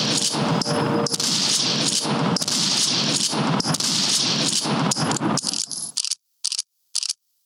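A gunshot sound effect delivers a dense, continuous fusillade of rapid gunfire for about six seconds, then breaks into a few short, separate bursts before falling silent.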